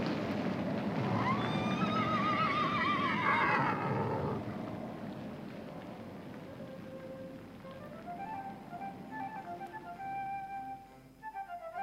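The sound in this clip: Horses from a string being led along the road neigh, with a loud, high, wavering whinny lasting about four seconds. Quieter, sustained tonal sounds follow, and no one speaks.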